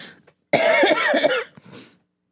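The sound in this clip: A woman coughs from an irritated throat: one harsh, strained cough burst lasting about a second, then a shorter, softer hack, with a faint breath before them.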